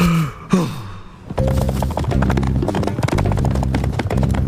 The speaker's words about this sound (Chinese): 哇咔咔好喜欢马，现在它像真的马一样自由地奔跑，看起来好开心啊